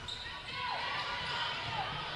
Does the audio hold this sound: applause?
no